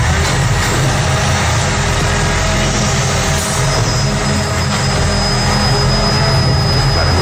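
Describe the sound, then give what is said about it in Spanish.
A cardboard recycling collection truck works in the city at around 1:30–2 a.m., giving a loud, steady low engine rumble with broad hiss throughout. A thin, high whine joins about halfway through. “Un camión de recogida... De recogida de basura. ¿Seguro? Te diría que es de cartón, precisamente, o sea, es recogida de contenedor de cartón”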